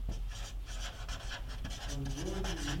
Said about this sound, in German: Im Tausch gegen, ich schreibe das mal in grün, weil das so wichtig ist, im Tausch gegen Value Content.